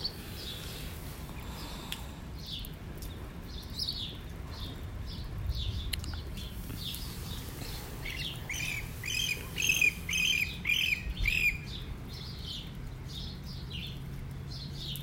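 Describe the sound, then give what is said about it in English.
Birds chirping outdoors just after rain, with many short, high chirps and squawks repeating throughout. A denser, louder cluster of calls comes near the end over a steady soft background. “I just wanted to pause for a second so y'all can hear the birds chirping. Raindrops just finished falling.”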